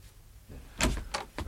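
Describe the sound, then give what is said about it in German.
A door is opened, with a few sharp clicks and rattles of the latch and handle in quick succession, fairly loud and without talk. “Ja, ich gehe schon. Ich öffne schon die Tür.”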